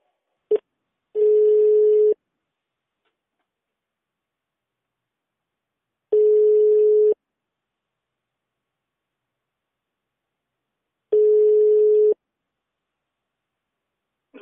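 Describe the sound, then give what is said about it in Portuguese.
Ringback tone of an outgoing phone call: a steady single-pitched tone lasting about a second sounds three times, each separated by roughly four seconds of silence, with a brief click at the start. “Vamos então ligar para o Ferron.”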